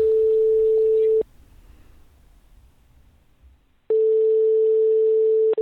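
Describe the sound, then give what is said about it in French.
Ringback tone of an unanswered telephone call to detention centres: two long, steady, mid-pitched tone bursts separated by a pause of faint line hiss, the second burst cut short. “Bon allez, j'appelle les centres de rétention.”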